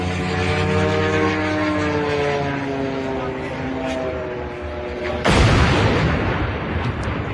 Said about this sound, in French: Ça, c'est le son d'un drone qui percute une grue de chantier.